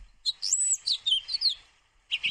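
Finches singing in a song contest: bright, high chirping phrases in quick, lively bursts that run almost unbroken for over a second, then a brief pause and another short burst of chirps.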